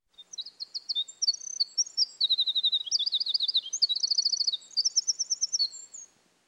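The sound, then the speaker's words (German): A wren sings alone, loud and clear, in a long, rapid, high-pitched song of fast trills and chattering notes that shifts through several quick phrases. “Applaus für den Zaunkönig! Der Kleine singt wirklich wie ein ganz Großer.”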